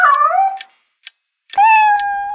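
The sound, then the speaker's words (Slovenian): A cat meows twice: first a wavering call, then a longer, steady, drawn-out one. A short pause with a faint click separates the two cries. “Ja, te nehi, mačka zoprna, ne vidiš, koliko je ura.”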